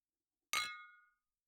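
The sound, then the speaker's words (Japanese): A single bright clink of glasses in a toast among three people at a shared meal, struck once with a sharp attack and a ringing, high tone that decays over roughly half a second into silence. “私たち夫婦とお隣さんの縁ということで、三人で乾杯。”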